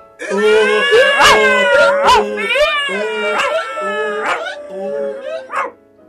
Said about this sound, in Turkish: Eşek ön ayaklarını pencereye dayamış. Köpek eşeğin üstüne çıkmış. Kedi köpeğin sırtına çıkmış. Horoz da kedinin üstüne tünemiş. Hep birlikte şarkı söylemeye başlamışlar.